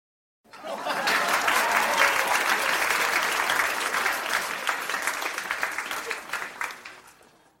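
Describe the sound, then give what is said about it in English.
An audience breaks into applause: steady, dense clapping from a crowd that holds for about seven seconds and thins slightly toward the end. “I heard applause and thought my circuits were failing.”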